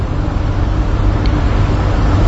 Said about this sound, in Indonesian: Mobil travel ini pun masuk ke kemacetan rutin tol dalam kota Jakarta.